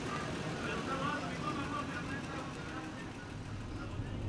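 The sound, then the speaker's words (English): A car drives along the border wall, giving a steady, even hum of engine and road noise with no distinct events. “We drive west along the wall until we see a sign for an RV park called Twin Buttes.”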